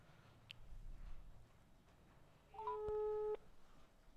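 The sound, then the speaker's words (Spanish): A telephone call is diverted to voicemail: faint line hiss gives way to a short electronic tone lasting under a second. No voices are heard. “Buzón de voz. No. Me está desviando la llamada.”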